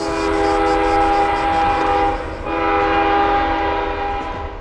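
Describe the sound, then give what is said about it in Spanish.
A train journey: a loud, continuous rail rumble carries steady sustained tonal lines, with a brief drop in level around the middle before the rolling sound resumes. “Esto es un viaje en tren al inicio del rodaje de la nueva película de Elena Whitman.”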